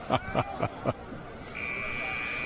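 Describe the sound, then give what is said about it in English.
A buzzer sounds at a high school football game as a steady, piercing high tone that begins partway through and holds to the end, following a few short, louder bursts of sound. “hey, there goes the buzzer”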